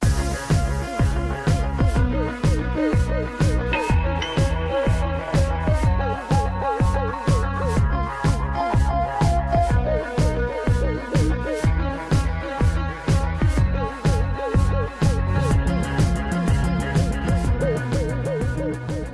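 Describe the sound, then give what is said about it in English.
Bombastic theme music from a long-running television singing competition, loud and full, driven by a steady pulsing beat with regular punchy hits and layered synth and orchestral parts. “It's been 14 years of the inescapable influence of this. Don't even try to pretend you don't know what that sound is. American Idol is saying goodbye.”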